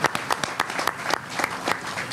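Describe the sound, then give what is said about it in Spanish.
Scattered applause for a company's general manager, a guest at a cultural event, made of separate sharp claps, several in quick succession, then a sparser few, fairly faint and without talk. “un aplauso para nuestro hermano de la empresa Kaizen, Ali.”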